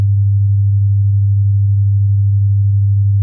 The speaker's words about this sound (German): Es ist ein bestimmter Ton, ein 100-Hertz-Ton. Und der klingt so.